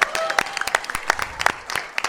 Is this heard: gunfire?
no

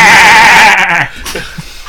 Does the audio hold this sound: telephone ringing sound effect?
no

